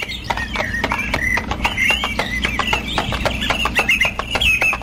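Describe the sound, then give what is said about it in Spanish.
A tired horse clip-clops as it walks away, its hooves striking in many quick, even beats, with a high wavering squeal running above them. “caballo cansado y fiel animal, el sacerdote se aleja rumbo a las yungas del cañar.”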